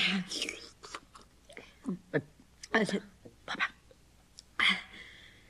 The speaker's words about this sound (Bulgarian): Кончо, не сърбай толкова шумно. Яш по-бавно.